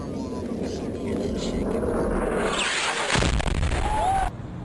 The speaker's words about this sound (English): Okay, that was the JDAM.